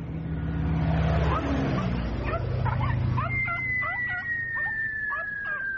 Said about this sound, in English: That's right. It's a skydiving dog. At least the bit where he leaves the plane.